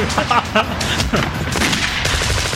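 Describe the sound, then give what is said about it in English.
Dense, continuous gunfire crackles throughout, many rapid overlapping shots forming a steady, loud barrage. “There's a lot of shooting.”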